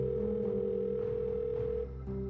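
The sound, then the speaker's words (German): A continuous telephone dial tone hums as a call to a hospital's lung department head is placed. The steady mid-low tone sounds alone, dipping briefly near the end before resuming. “Jaken ruft den Leiter der Lungenabteilung am Wuhan Central Hospital an”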